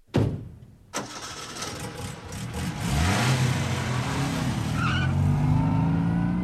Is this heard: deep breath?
no